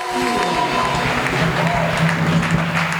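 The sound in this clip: Applause and cheering from an audience at a worship service, a loud, continuous wash of many clapping hands with raised voices calling out over it.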